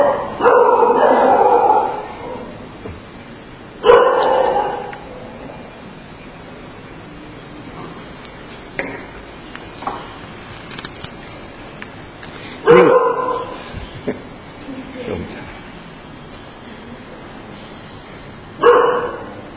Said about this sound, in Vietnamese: chó nó sủa người lạ hay người quen hả?